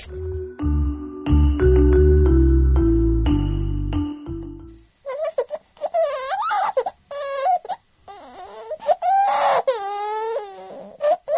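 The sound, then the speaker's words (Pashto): A young daughter cries in a domestic drama. Wavering wails and sobs rise and fall in pitch, broken by short gasping pauses, and follow a few seconds of tonal music. “یار یار، ولې ژاړې زما خوږې لورې؟”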